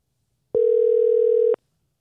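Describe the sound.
A telephone call ringing out: a single steady ringback tone at a mid pitch, lasting about a second, heard alone with no voices.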